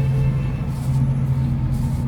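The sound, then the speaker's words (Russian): Tanks drive near the Belgorod-region settlement of Gorkovsky with a heavy, steady engine rumble. A low tonal hum sits inside the drone, and no separate events stand out. “Танки едут.”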